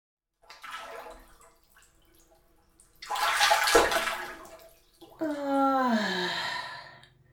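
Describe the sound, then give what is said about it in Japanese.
Water sloshes as someone settles into a filled, pre-heated home bathtub. A burst of splashing comes midway, then a long contented vocal sigh that falls in pitch. A softer breath comes earlier. “ああ、やっぱり湯船に浸かるのはいいよな。体とともに心も洗われるような気がする。”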